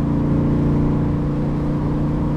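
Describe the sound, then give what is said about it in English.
A car engine revs to 3500 RPM after a downshift, giving a loud, steady, droning hum with strong low harmonics throughout. “2400 RPM. Let me downshift here. That is 3500.”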